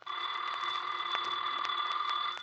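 A telephone rings in a continuous, bright bell trill that holds steady and even for the whole stretch, alone with no voices.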